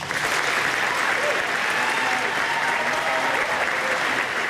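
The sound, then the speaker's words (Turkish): Sustained applause after a resignation speech by a prime minister following a local election defeat. The clapping is a dense, steady wash that holds at an even loudness from start to finish, with no talk over it. “İstifasını açıklarken gözyaşlarını tutamadı, dakikalarca alkışlandı.”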